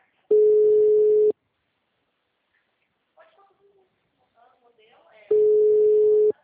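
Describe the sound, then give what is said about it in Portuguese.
Telephone busy tone after a dropped call: two long, steady mid-pitched tone pulses about four seconds apart, with faint scattered sounds in the quiet gap between them. “Oh, a ligação caiu, homem. O senhor tá desligando? É. Não, caiu mesmo.”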